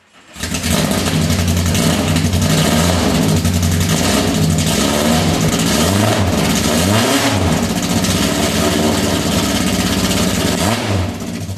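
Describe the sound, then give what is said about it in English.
Car engine running loud and steady, with a few short throttle taps that rev it under 3,000 rpm. Each tap makes the engine pitch swell up and settle back to idle. “the revs we just heard were under 3,000. Yeah, yeah, he was just tapping it, just a little tap.”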